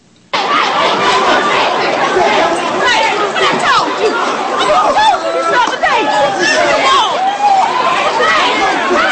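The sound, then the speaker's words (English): Crowd commotion at a Texas high school during an arrest: dense, loud chatter and excited voices from many people talking at once, continuous throughout with no pause. “What you're hearing right now is the scene at a high school where a cop breaks a student's arm in Texas.”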